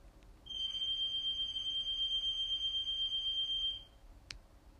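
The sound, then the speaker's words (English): An alarm goes off: a single steady, high-pitched electronic tone holds for about three seconds and then stops, followed shortly by one brief click. “I don't know what that sound is, but I should probably go check that out. You know what? I'm gonna come back. 'Cause that sounds like some sort of siren or alarm or something.”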